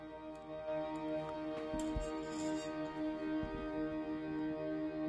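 A pop song slowed down 800 percent into ambient music: layered, sustained harmonic tones drone steadily throughout, with a few soft low thumps, and no voices.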